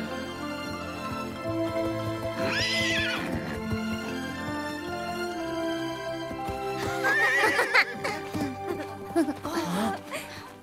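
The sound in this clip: A horse neighs twice, high quavering whinnies a few seconds apart, over steady background music.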